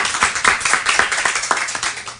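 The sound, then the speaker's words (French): Hands clapping in lively applause for a guest author, many sharp claps overlapping in a quick, uneven rhythm that runs steadily through the whole short clip. “On peut l'applaudir, oui.”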